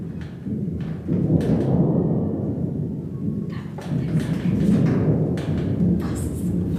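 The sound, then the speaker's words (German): A very distant, low rumble of thunder rolls on steadily for about seven seconds. It is deep and muffled, swells slightly midway, and has no sharp claps. “Ich kann zum Beispiel ein ganz entferntes Gewittergrollen nur machen.”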